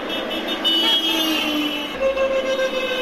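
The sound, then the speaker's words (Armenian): Car horns toot from passing cars as drivers signal support for women demonstrating in white clothing with flowers along a street. A few short horn blasts rise above a steady rumble of traffic. “անցնող մեքենաների վարորդներն էլ նրանց ազդանշան էին տալիս ի նշան աջակցության”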